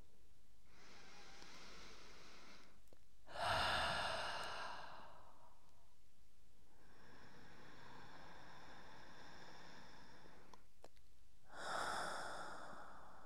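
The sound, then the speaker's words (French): Slow, deep breaths drawn in through the nose and released through the mouth during a guided relaxation exercise. Soft, airy inhales alternate with two louder, breathy exhalations, with no talking. “D'abord, je viens prendre trois respirations par le nez en expirant par la bouche.”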